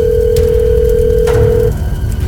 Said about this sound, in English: Hold on, I have to make one last phone call.